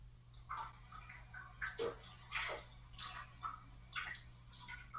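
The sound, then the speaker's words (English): Berries being washed under running water make faint, irregular bursts of splashing and rushing over a steady low hum. “Yeah, my roommate is washing berries in the background.”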